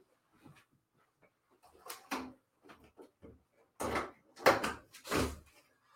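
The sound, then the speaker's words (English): A window is opened in a home studio. Faint soft clunks and scraping handling noises come in a few short bursts, with no voices. “And I probably should open up a window. So I'm going to do that. Yeah, I'm going to open up a window in here.”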